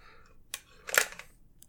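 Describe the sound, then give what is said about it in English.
Two brief mechanical clicks come from the bolt of a bolt-action rifle as it is removed. The second click is louder and sharper, and both are quiet and isolated. “the other thing that a lot of people do, though, on a bolt-action rifle when they're getting ready to work on it, and I'm going to do it right now, is they remove the bolt.”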